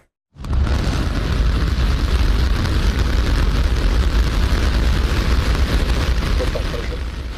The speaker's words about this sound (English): A Starship V3 rocket from SpaceX launched successfully on Saturday from Texas. All 33 engines lit up perfectly on the pad.